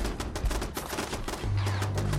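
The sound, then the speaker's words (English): A turret fires rapid automatic gunfire in a video game, a dense burst of sharp cracks repeating quickly. Partway through, a steady low hum joins in. “That's a turret up there.”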